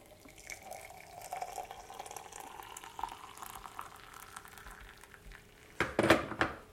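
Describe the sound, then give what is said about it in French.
Water is added to two large sugar cubes, starting as a faint trickle and ending in a brief, louder splashing pour. “Et après, j'ajoute de l'eau.”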